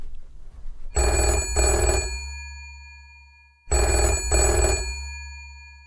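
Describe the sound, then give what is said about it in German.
A telephone rings with an incoming call: two bright, harmonic double-pulse rings separated by a pause of more than a second. The rings are loud, with no talking. “Unser Mentor ruft an. Ich gehe mal ran, okay?”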